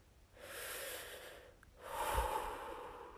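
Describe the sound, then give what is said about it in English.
Two slow, deep breaths, each a long airy rush of air, the second fuller and louder than the first, faint and heard alone without talk. “Deep breaths”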